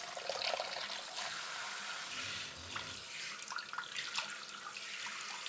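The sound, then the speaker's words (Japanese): Hot water runs from a tap in a steady splashing hiss, as if for a hair wash, continuous and fairly soft throughout with no talking. “お湯は熱くないかな。では、頭にお湯をかけますね。”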